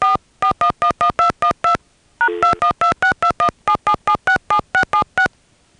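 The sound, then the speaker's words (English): Touch-tone dialing on an AT&T telephone line: a rapid series of many short, bright DTMF beeps in quick, even bursts, with one brief pause and a slightly different tone partway through, with no voices. “AT&T. Please dial the number you are calling.”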